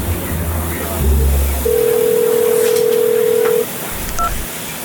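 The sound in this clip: A telephone call is dialed: a steady two-second line tone sounds over dense background noise, followed by a short keypad beep.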